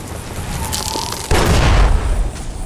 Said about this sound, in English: We're going back to the dynamite. Because I still got lots of dynamite. And I feel like I can just blow this guy up.